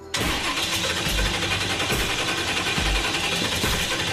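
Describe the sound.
An engine that has never run before starts after its ignition is reconnected and the timing advanced. It catches abruptly and then runs loud and steady, with a rough, pulsing low rumble throughout.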